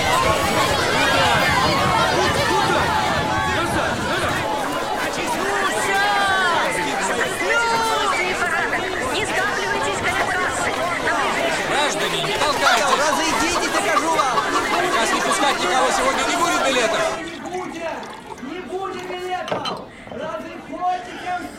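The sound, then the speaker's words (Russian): Passengers at the Brest railway station storm the train carriages in a dense crowd, a continuous babble of many voices that thins and drops in level near the end. “Толпа пассажиров бросается осаждать вагоны поезда. Брест. Железнодорожный вокзал.”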